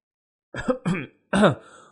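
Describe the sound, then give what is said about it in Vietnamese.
Dry coughing from a young man, three short, rough bursts of throat-clearing coughs, the first two close together and the third, after a brief pause, longer and fading out. “Sau khi đi ra, gã không ngừng ho khan, khiến cho mọi người phải chú ý”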